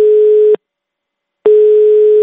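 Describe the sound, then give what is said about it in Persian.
Telephone call signal of two loud, steady single-pitch beeps, cut off by about a second of silence between them. “تلفن کنیم”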